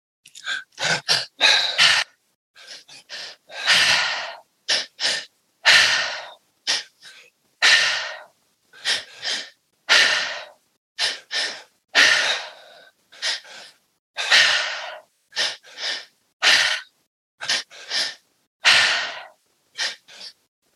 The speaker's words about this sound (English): And when you're ready, you can begin that triactive breath.